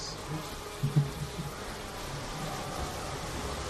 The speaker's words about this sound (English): we got bees coming down the subway tunnel. Uh oh. Subway bees. Worst kind.